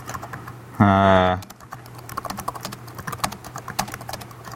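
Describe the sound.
Perl code is typed on a computer keyboard as rapid, irregular clicking keystrokes after a short voiced sound near the start. The clicks stay fairly light and continue steadily to the end.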